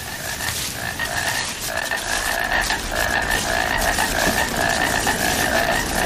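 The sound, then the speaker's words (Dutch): A disc-tongued frog croaks in rasping, pulsed calls repeated in an almost unbroken rhythmic series, loud and steady over a noisy natural background. “Nou, dan gaan we wachten tot ze tevoorschijn komen. Even luisteren nog naar die schijftongkikker.”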